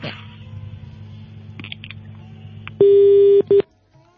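Telephone tones sound as a call is hung up to take the next caller: a steady low hum, then a loud tone in two bursts, one long and one short.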